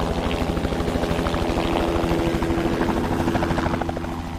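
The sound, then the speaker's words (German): A helicopter flying while carrying a load down to the valley in the Ötztal Alps: a loud, steady rotor chop of fast, even beats over a low engine drone, easing slightly at the very end. “Dann transportiert der Hubschrauber alles zu Tal.”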